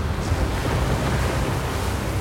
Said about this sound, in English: The ship swayed and rolled. The oncoming waves threatened to tip her over.